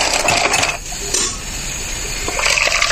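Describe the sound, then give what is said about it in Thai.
Soda poured into a glass fizzes with a loud, steady hiss, easing briefly in the middle before rising again toward the end. No voices are heard. “นี่ฟังเสียงเติมโซดาหน่อยโอ้โหซ่ามาก”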